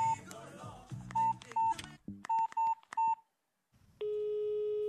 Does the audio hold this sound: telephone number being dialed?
yes